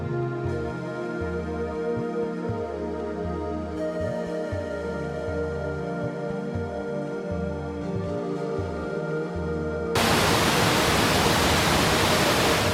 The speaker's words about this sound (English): White mist rises from a wide curtain of falling water, where a river splits and cascades over ancient volcanic rock.